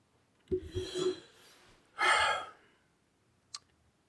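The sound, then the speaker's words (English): Heavy breathing blown straight into a microphone: a breathy exhale with a low voiced edge, a pause, then a second loud, rushing breath, followed by a faint short click. “I breathe heavily into the microphone there because I don't really have any follow-up to anything right now.”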